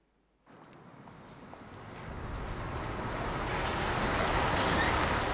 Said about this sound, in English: A bus draws up in front of him.